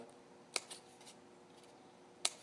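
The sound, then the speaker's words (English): Scissors snipping the top seam of a sheet of paper folded in half: two crisp, faint snips well apart, with a couple of quieter ticks of paper handling between them. “after you fold in half, you need to cut kind of the top seam here so that there's a little bit of”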